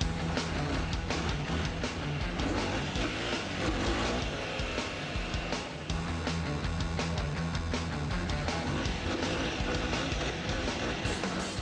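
A quad ATV engine roars steadily during a test drive, its dense, throaty drone holding at a loud, nearly constant level throughout, with no clear pauses or breaks.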